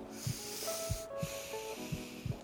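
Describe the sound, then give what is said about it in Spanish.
A deep breath during a doctor's examination: a long airy hiss drawn in, a brief pause, then a steady breath out, over soft sustained tones and a few dull low thumps. “A ver, abre la boca. Respira profundamente.”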